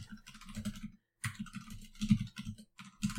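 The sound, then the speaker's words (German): Keyboard typing right beside the microphone, crisp clicking keystrokes in rapid uneven bursts with one short pause early on, fairly quiet and without talk. “Ich tippe hier so schön ins Mikro.”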